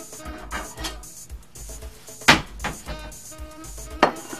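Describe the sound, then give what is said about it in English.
A plate is picked up during a chocolate dessert demonstration, giving a few sharp clinks and clatters of crockery with two louder knocks standing out against quiet handling noise. “Now, I'll just grab a plate.”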